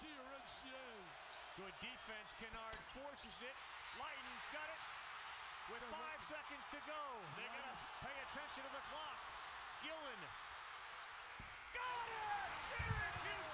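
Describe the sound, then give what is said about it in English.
Basketball game footage of Syracuse against Duke during a last-second shot: a ball bounces repeatedly while people talk throughout, and the sound grows louder in the final seconds. “clip of a last-second shot made by Syracuse against Duke in a very, very important ball game. And the guy makes a last-second shot. I'm just going to show you just the game. All right, here's the last-second shot.”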